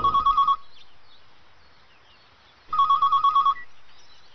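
A telephone ringing: two bursts of a rapid, trilling electronic bell, each under a second long and separated by a pause of about two seconds, clear and without voices.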